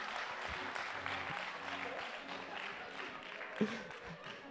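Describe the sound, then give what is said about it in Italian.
An audience bursts into applause at a Sunday gathering, producing dense, steady clapping that holds at an even, moderate level throughout. “Qua scatta addirittura l'applauso.”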